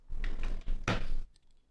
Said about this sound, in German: Ich muss mir passend zum, zum Start jeder Folge erstmal mein Getränk aufmachen.